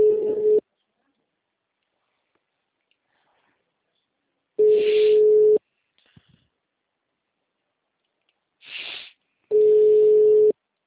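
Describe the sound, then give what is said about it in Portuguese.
A telephone tone sounds as a call fails to go through: three long, steady tone pulses at the same pitch, each followed by a long silent gap. “Tá, tô tentando ligar pra ele. A ligação caiu.”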